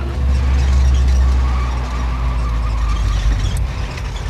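Car roaring along at speed during a chase, a loud, dense low engine rumble that runs throughout and eases off slightly partway through.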